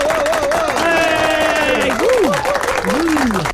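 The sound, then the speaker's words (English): A clapping sound effect played from a radio presenter's button, a wash of applause and crowd cheering under prominent voices with rising and falling whoops. “I think I've managed to get the sound effects working from my buttons. Ooh. So I think I've got those. So I've got me clapping there.”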